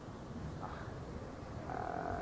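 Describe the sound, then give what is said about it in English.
A frog croaking: faint, rough, low croaks over a quiet background, growing somewhat stronger toward the end. “I think we have a frog.”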